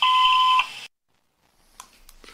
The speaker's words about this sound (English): We're not home right now, but please leave a message after the beep.